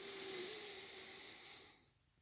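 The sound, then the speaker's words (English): A long, deep breath drawn in through the nose as a demonstration in a guided relaxation exercise, a soft, airy hiss that holds steady and then fades out near the end. “And take a nice, long, deep breath for me. In through your nose like this.”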